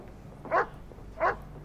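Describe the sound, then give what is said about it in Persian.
A dog barking twice, with two short, mid-pitched barks about half a second apart over a low, steady hum. “اون صدا رو میشناسم، این یعنی کمکمون رسیده. اون سگ مال کیه؟”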